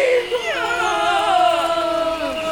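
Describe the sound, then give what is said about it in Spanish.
A woman crying, an angry and upset mother, in long drawn-out wails with strong harmonics that slide downward in pitch, loud and continuous with no pause between them. “Nuestra mamá está enojada. Y está llorando.”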